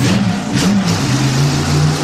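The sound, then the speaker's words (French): A motorcycle engine revs in a loud, continuous mid-pitched drone. The tone swells briefly early on, then settles into a steady, rough hum. “Et si on partait en moto, tout en haut? Oui, là où il y a la mission. Allez, on y va, on est parti.”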